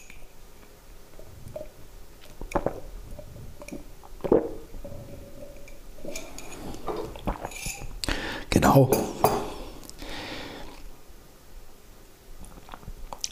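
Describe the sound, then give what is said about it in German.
Someone drinks the last of a cup of coffee: scattered clinks of the cup and soft mouth and swallowing sounds, with a louder clatter in the second half. “ansonsten habe ich hier noch meinen Rest Kaffee, den ich trinke und den trinke ich jetzt auch.”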